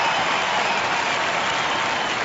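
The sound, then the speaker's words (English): A crowd cheers at a baseball game in a steady, dense roar of noise. The sound stays even throughout with no breaks, and no single voice stands out. “The crowd's cheering, but he hasn't hit it yet.”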